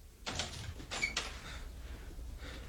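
A door opening in a radio drama: a faint scraping, creaky movement with a couple of soft bumps, then low quiet noise.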